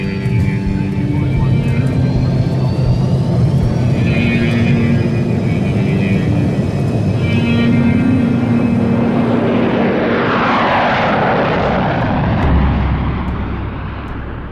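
An aircraft taking off gives a loud, continuous engine roar with whining tonal layers that holds steady for the whole stretch and eases slightly near the end.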